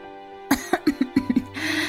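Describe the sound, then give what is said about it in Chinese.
A woman coughs violently after choking on tea: seven harsh, rapid coughs in quick succession, loud and alone, trailing into breathy, noisy exhaling. “一直温婉微笑的宋母也发出被茶水呛到的剧烈咳嗽”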